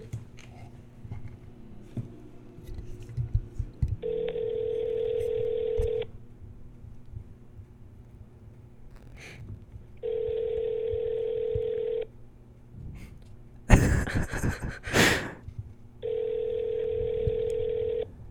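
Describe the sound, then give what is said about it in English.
Ringing tones from a phone call placed on a handset held up to a microphone: three steady two-second tones spaced about six seconds apart over a low hum, with a brief loud rustling burst between the second and third. “call Hayden, listen to his voicemail. Oh, he wants to hear his voicemail. Put it up to the mic.”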